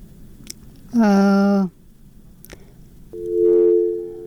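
A busy tone sounds on a telephone line that has just been cut off: two sustained, buzzy electronic tones separated by a short pause, each starting abruptly and fairly loud against a low hiss.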